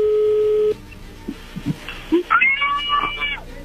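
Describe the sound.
A telephone call connecting: a steady low tone that cuts off abruptly, followed by quiet line noise, a few faint clicks and short electronic chirps on the line.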